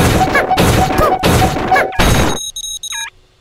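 Several heavy smashing crashes come in quick succession as a big box is broken apart in a video game. A bright, high chiming jingle of a few notes follows, then the sound fades.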